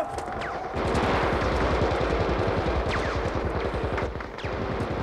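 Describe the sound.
Gunfire in a battle: dense, rapid bursts of automatic fire crackle continuously and loudly, with overlapping shots and no pauses throughout.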